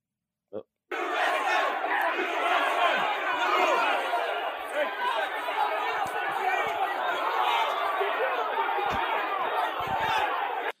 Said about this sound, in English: Here's a video from inside the Capitol. We could play you 1,000 videos, but it's just a lot of noise. But here's the one from inside the Capitol.